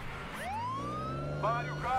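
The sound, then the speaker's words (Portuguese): Fire engine siren wailing in a steady rising sweep, its bright tone climbing in pitch over a continuous low rumble, with further tonal bursts near the end. “Ambulância? Oh, meu Deus. Um carro de bombeiro.”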